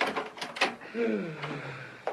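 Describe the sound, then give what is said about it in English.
A cellar door is opened. A few faint knocks and clatters are followed by a drawn-out creak, like hinges straining, and a soft thump at the end. “And now to the cellar. I will open the door.”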